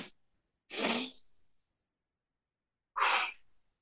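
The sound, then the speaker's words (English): A person demonstrates a breathing technique of two inhales through the nose without an exhale between them: two short, sharp, airy breaths separated by a clear pause, with near silence around them. “What we do is we do two inhales right away without an exhale.”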